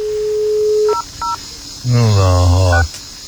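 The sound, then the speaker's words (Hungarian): Keypad tones from a telephone as a number is dialed: a steady dial tone cuts off, two short beeping key tones follow, and then a person talks. “Ezt hívjam fel Sanyát Komlóról? Hívjuk fel”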